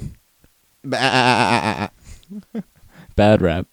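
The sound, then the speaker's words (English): A farm animal lets out a long, wavering, strained bleat, then a few faint short sounds, then a second shorter bleat near the end. “Farm animals. I don't even know what that was. It was something dying.”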